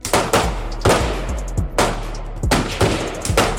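Gunfire at a sideshow shooting gallery: a rapid, irregular series of loud, sharp cracks, each decaying quickly over a steady low hum.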